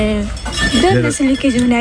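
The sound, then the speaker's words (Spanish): Dishes being washed by hand, with plates and cutlery clinking against each other under talking voices. “A ver, aquí están limpiando los platos. Sí, buenos días. Limpiáis a mano, no hay lavaplatos aquí, ¿eh?”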